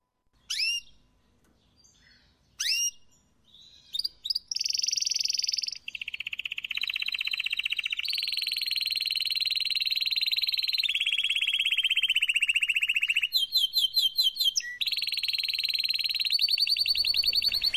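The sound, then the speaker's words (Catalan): A canary sings loudly and without pause: a few short chirps open into long bright trills and rapid warbling runs, shifting between high whistled phrases. No voices are heard. “Tranquils, no busquen el canari, no se'ls ha, no està en la finestra del seu veí ni s'ha colat per la seua casa, sinó que està sonant darrere de nosaltres, així, a Ràdio Vila-real.”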